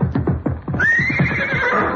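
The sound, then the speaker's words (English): A horse whinnies loudly while being worked as a jumper in a ring. The call opens with rapid pulsing bursts, then stretches into a long, high, wavering cry that holds to the end. “Take it easy with that horse.”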